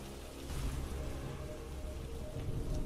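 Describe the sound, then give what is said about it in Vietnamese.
Rain and thunder at night: a steady, dense hiss of falling rain over a deep, low rumble, fairly quiet and continuous throughout with no pauses. “Ngoài trời bắt đầu đổ mưa, sấm sét đùng đùng vang dội, những tia sét xé toạc bầu trời đêm tăm tối.”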